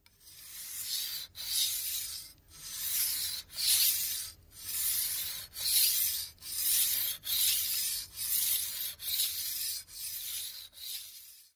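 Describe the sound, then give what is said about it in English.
Rhythmic gritty scraping of a metal blade drawn across a stone, repeated in many regular, evenly spaced strokes with short pauses between them. The hissy strokes are bright and fairly soft, with no talking. “literally the thing to finally give me ASMR is just as annoying as I am, which is a metal blade hitting a stone.”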